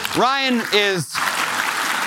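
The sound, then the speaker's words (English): Audience applause for a guest breaks out after a brief drawn-out voice, a thick patter of clapping that fills the last second. “Can we give Ryan Murdoch a round of applause?”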